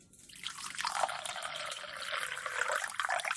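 Water pours steadily for coffee, a continuous soft splashing hiss with small drips, faint and unbroken throughout.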